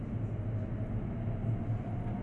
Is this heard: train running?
yes